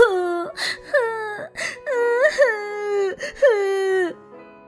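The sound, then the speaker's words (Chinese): A child cries while sitting on the floor after spilling strawberry jam, voiced by a performer imitating the sound: a run of high, wavering, whimpering wails with catches of breath between them, heard alone. “布奇伤心极了，坐在地上哭了起来。”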